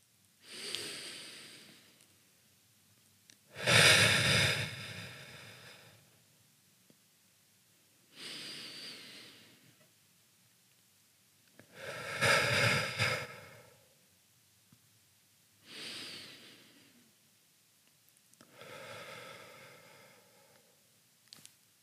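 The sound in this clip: Slow, deep breathing in and out during a guided finger-counting breathing exercise: six long, airy breaths spaced evenly with quiet pauses between them. Some breaths are fuller and louder than others, and no one speaks.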